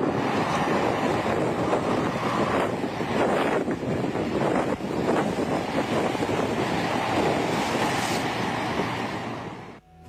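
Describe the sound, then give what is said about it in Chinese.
A sandstorm caught in a field recording made on a trip to record birdsong: loud, roaring wind buffets the microphone in a steady rush with a few stronger gusts, then fades away at the end. “所以才会有沙尘暴这种现象发生。大家可以听听我录的声音。”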